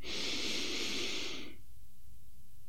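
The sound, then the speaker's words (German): A deep breath drawn in during a guided breathing exercise: one long, airy rush lasting about a second and a half, then near silence. “Atme tief ein.”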